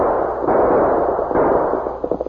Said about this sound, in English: Shot might get his attention.